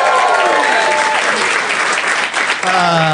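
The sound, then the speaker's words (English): Live audience applause at the UCB Theater in Los Angeles: loud, dense clapping mixed with whoops and cheering voices, holding strong before easing slightly near the end. “We are at the UCB Theater in Los Angeles in front of a live audience. Let's hear it, audience.”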